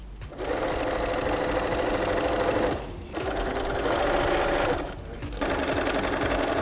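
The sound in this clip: A sewing machine stitching canvas or cotton fabric for a bag. A loud, rapid, steady whirring runs in three stretches separated by two brief pauses.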